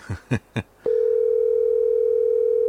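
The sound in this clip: A telephone dial tone, heard while dialing back into a call, sounds as a loud, steady, unbroken tone for about two seconds after a few short knocks.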